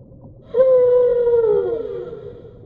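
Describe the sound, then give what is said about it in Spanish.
A whale vocalizes in the vast ocean, one long, smooth, moaning tone that holds steady for over a second, then dips lower and fades out. “La ballena nos lleva en un viaje a través de su hogar, el vasto océano,”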